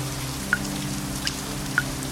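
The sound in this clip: Monotonous dripping water: three distinct, sharp high plinks of falling drops, spaced irregularly over a steady low hum.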